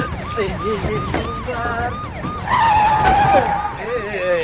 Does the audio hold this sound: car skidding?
yes